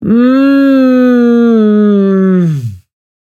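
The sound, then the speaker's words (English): A singer holds one vocalized tone while letting all the air blow out. The loud, steady note sags downward in pitch as the breath runs out, then stops abruptly into silence. “When I do exercises, I never blow out my air. Never blow out, never as a singer, never blow out your air. This is what that sounds like.”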